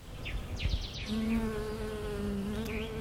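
Bees buzz in a steady, low, droning hum whose pitch wavers slightly, with a few brief high chirps above it early on.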